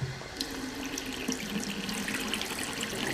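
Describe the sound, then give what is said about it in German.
Tomatoes being rinsed under a running tap: a steady, continuous rush and splash of water that holds at an even loudness for the whole stretch, with no talk. “I'll rinse the tomatoes immediately.”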